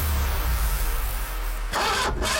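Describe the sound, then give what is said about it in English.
A car engine failing to start gives a steady low rumbling drone, then a brief, louder rough burst near the end, with no voices. “She types, car won't start”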